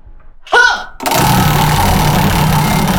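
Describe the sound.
A prize wheel spins with a rapid, continuous whirring clatter of ticks that holds steady and loud to the end. A short vocal sound comes just before the spin starts.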